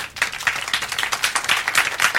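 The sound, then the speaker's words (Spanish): Welcoming applause for a new boss at a workplace meeting: many quick, bright hand claps in a fairly even patter, loud and continuous, with no voices over it. “Yo creo que lo primero sería darle un aplauso de bienvenida, ¿no? Al jefe,”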